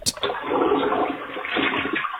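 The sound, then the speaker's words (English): A toilet flushing: a sharp onset gives way to a steady rushing and gurgling of water that stays fairly faint and continues to the end. “That was a toilet flushing in the background, if you couldn't hear that.”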